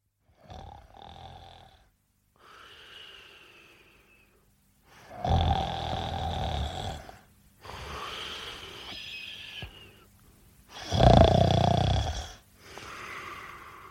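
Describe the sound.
A man snoring in bed makes several rasping, throaty breaths in an uneven rhythm, some louder and longer than others, with short silences between them.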